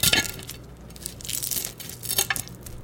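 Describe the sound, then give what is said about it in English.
Crackling crunches of a utensil cutting through the crispy, salted edges of fried eggs just taken off an induction heat, a few sharp bursts of brittle crackle at a moderate level with no talk. “And listen to this crisp as I cut through. Listen to these crispy edges.”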